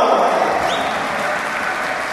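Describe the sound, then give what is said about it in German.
Thunderous applause greets a performer walking onto a concert stage in Dubrovnik: a loud, dense, unbroken wash of clapping that holds steady throughout, with no voices over it. “Unter tosendem Applaus betrat der Mann die Bühne, mit dem wir vor kurzem noch in der Garderobe gesessen hatten.”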